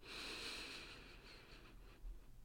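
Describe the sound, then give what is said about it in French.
A slow, deep inhale held for a count of four seconds during a breathing exercise for calming anxiety, heard as a soft, faint airy hiss that gradually fades, with no talking over it. “on va inspirer 4 secondes.”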